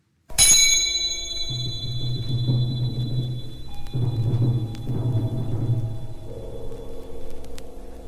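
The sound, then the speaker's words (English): Antique cymbals open George Crumb's Frozen Time: one bright metallic strike rings out with long, crystalline high overtones, then sustained lower tones swell and shift beneath the fading resonance, with faint metallic pings along the way. “that first antique cymbal right at the beginning, which I think you have a clip of. Yeah, I thought we would listen a little bit to that opening and hear the bells, that kind of crystalline, clear.”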